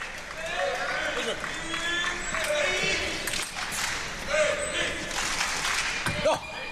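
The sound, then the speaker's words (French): Swedish crowd cheering at a table tennis match in Malmö Arena, a continuous, fairly loud wash of voices and applause with no pauses, with a few sharper bursts near the end. “Et on entend les encouragements du public suédois. Il y a des Français dans la salle dans cette Malmö Arena”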